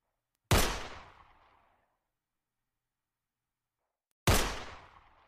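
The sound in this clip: Two gunshots from a gun fired at a shooting range: each is a sharp, loud crack with a quickly fading tail, separated by several seconds of silence, with no talk.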